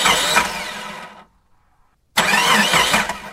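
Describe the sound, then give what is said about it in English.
A car engine cranks as the ignition key is turned but fails to catch: two loud, steady bursts of whirring cranking separated by about a second of silence. “Casey quickly turned the key in the ignition. The car cranked”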